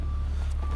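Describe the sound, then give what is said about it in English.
Reversing beeps from a vehicle at construction work across the street: a steady high tone over a constant low engine rumble. “As you can hear, there's some construction going on across the street. They're very loud about it.”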